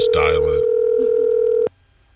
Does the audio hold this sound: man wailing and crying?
no